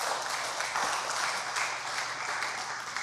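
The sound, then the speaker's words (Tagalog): A church audience applauds with dense, continuous clapping that stays fairly faint and even throughout, with no talk over it. “Pwede po ba nating palakpakan si Lord?”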